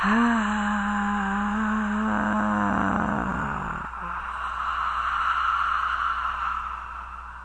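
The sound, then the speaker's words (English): Slow, deep breathing made deliberately audible during a guided relaxation exercise to calm emotions: a long, loud drawn-out breath that begins with a voiced, tonal sound and then turns into a steady airy rush, with no talking. “So you breathe in. And as you breathe out, very slowly, I'm doing it with you.”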